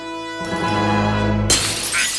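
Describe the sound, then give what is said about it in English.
A wall of many screens shatters and falls: a held musical chord swells, then a sudden bright, glassy crash breaks in and scatters into tinkling debris to the end. “It shatters and falls, revealing a tuxedo-clad Homer and Bart mid-strangle.”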